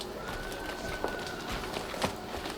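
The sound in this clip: Footsteps walk closer toward a door in a dramatized scene, a few soft, sparse steps heard faintly over a steady background hiss.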